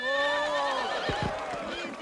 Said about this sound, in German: Da bricht also das Pferd aus, die Grace Jones Figur